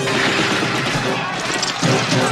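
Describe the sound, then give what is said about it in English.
Dense, relentless gunfire from a combat scene in the film Salvador, set in El Salvador, with overlapping bursts forming a continuous loud roar and voices mixed into the chaos. “Whatever you do, okay? Don't get on the ground. They're not just shooting Indians. They're shooting at us.”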